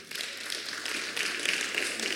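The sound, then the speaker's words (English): An audience claps for a woman in church, a faint, diffuse patter of applause that stays fairly even with small swells. “Let's clap for her.”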